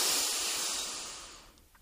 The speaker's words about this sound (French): Nous venons placer nos mains devant notre sternum. Nous inspirons puissamment.